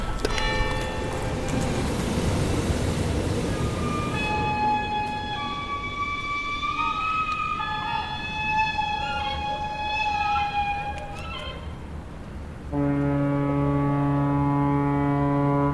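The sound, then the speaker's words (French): Sirens wail in overlapping, wavering tones over a dense, noisy background, and a steady sustained tone takes over near the end. “Écoutez le chant des sirènes.”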